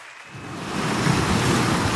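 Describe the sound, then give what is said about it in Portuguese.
Sea waves surge in a broad, rushing roar that swells from a quieter start and then holds steady. “Fechem os olhos. O mar está já ali.”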